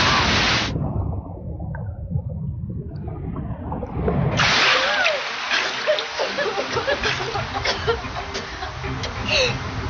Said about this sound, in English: The waves are sucking us down with them. Here comes another wave.